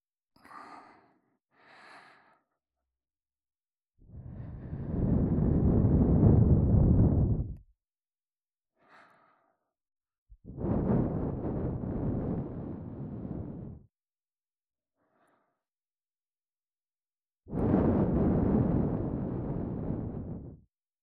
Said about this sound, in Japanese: まずは、お耳の中を、優しく、ふぅ、ふぅってしていきますね。